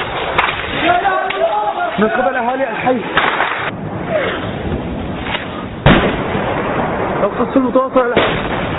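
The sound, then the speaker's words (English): Gunfire and shelling ring out in Homs, Syria, where neighbourhoods are hit by government tanks, rockets and snipers. Sharp cracks and blasts, with one heavy bang near the middle, mix with voices talking. “It's been the primary focus of attacks by the government. And what we're showing you right now are some of the neighbors specifically targeted by government tanks, rocket attacks, snipers in some cases.”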